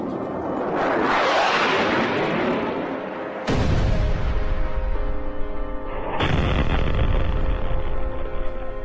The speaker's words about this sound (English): A massive bombing campaign driving the Taliban back to save the men's lives.